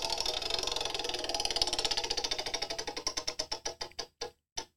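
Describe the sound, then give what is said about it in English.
A prize wheel spins and ticks: a fast stream of clicks slows steadily into separate, widely spaced ticks before coming to a stop. “Can we like spin a wheel? Oh, we can spin a wheel.”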